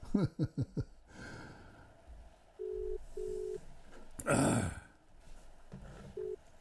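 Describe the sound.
Telephone line tone as a radio host calls a listener on a Punjabi radio show: a few short pulsed tones with clicks and a loud burst of breathy noise between them.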